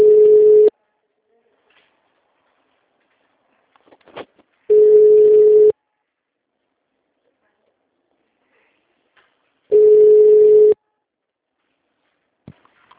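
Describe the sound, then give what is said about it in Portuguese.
A telephone ringback tone sounds on an unanswered call to a municipal office's HR line. Three loud, steady one-second tone bursts are separated by about four seconds of near silence, with a few faint clicks in between. “Caiu a ligação pro Ricardo. Tá, mas tocou pelo menos? Tocou. Ele chegou a tocar.”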